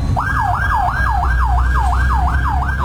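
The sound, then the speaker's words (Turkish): A fire engine siren wails in a fast, repeating up-and-down yelp as the truck heads to a reported fire through traffic, loud over a low rumble of engines. “Silvan Bulvarı'nda yangın ihbarı için yola çıkan itfaiye ekiplerine sürücüler yol vermek için fermuar sistemine geçti.”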